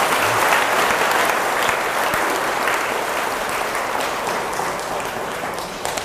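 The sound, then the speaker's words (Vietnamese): An audience gives a big round of applause: dense, loud, continuous clapping that holds steady and eases off slightly at the end, with no voices standing out. “Hạnh phúc là hãy dành một tràng vỗ tay thật lớn.”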